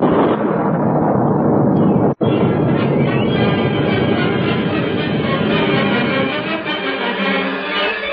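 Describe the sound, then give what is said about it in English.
An explosion blasts rock and earth from a hillside and blocks a narrow pass. A loud, dense roaring rumble holds steady for several seconds. “The blast went off, and great masses of rock and earth were torn from the side of the hill, blocking the narrow pass.”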